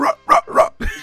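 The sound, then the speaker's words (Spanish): A human voice imitates a hoarse dog's bark, giving four rough, throaty woofs in a quick, uneven rhythm. “Perra es de ese ladrido de perro como ronco. ¿Cómo es esto? Es así...”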